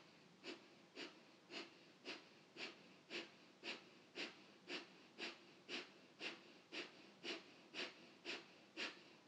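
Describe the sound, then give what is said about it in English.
Kapalabhati breathing during a meditation practice: many sharp, forceful exhales through the nose, each a short airy hiss, repeated in a steady rhythm of about two per second, with no talking. “going to do a kapalabhati, so about a minute, through the nose, either eyes closed or a softly gaze down. Find a rhythm and flow that works for you. Inhale comfortably, sharp exhale through the nose.”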